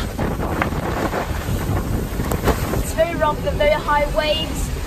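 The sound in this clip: Strong wind roars across the microphone aboard a sailboat at sea in rough, wet weather, a dense, continuous rush with water noise and a faint wavering voice partway through.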